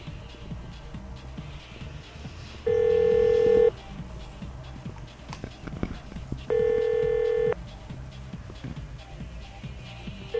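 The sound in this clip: Unanswered telephone call ringing: two steady electronic ring tones, each about a second long, separated by a few seconds of faint background noise.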